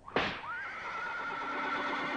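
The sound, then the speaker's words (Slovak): A coachman's whip gives one sharp crack, and then a horse neighs in a long, quavering whinny that trails off. Both sounds are faint. “Počuješ? To už pohonič plieska bičom, že je čas ísť.”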